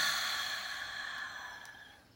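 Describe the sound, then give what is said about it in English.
A long, deep breath released slowly during a relaxation exercise: a soft, breathy rush of air lasting about two seconds that gradually fades, heard alone with no talk. “Let's take a nice deep breath in. And release.”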